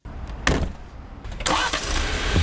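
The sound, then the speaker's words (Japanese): Jeep Wrangler engine starting, with a few sharp bursts before it settles into a loud, steady running rumble. “まずはジープラングラーに乗って地元を走ります。”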